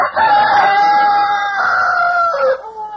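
A rooster crows at dawn in one long, loud call that holds steady, then dips in pitch at the end, heard alone.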